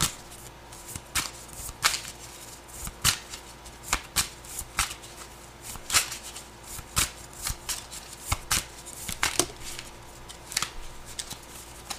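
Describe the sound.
Tarot cards are shuffled for a reading: many crisp riffling bursts and paper slaps come in an uneven rhythm, alone and clearly audible throughout.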